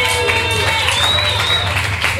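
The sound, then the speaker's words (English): A concert audience at a tribute show applauds, a dense, loud wash of clapping and crowd noise with voices and sustained tones mixed in, holding steady throughout. “We want to thank the Johnny Martyrs for putting this on. Give them a big round of applause.”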